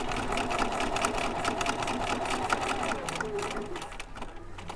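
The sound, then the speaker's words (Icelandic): Sewing machines whir steadily in a sewing workshop on the upper floor of a shop, where five women sew traditional Norwegian bunad costumes. The droning mechanical hum is continuous, with a fast rattling pulse running throughout. “Að lokum fekk ég að sjá sjálfan saumaskapin á saumastofu á efri hæð verslunarinnar þar sem fimm konur sátu og sinntu ólíkum hliðum í margara daga ferli.”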